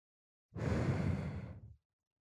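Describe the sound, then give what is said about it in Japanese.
A single soft breath blown out, one airy exhale lasting just over a second that holds steady and then fades, with no voices. “これはただ、息を吹きかけてるだけ。”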